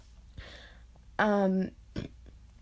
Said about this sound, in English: I just burped, I'm sorry.